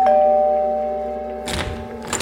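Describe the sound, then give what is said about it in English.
A house doorbell rings once, a sustained electronic chime tone that slowly fades, followed by a few soft thuds and rustling noises. “9 minutes later, the doorbell rang again.”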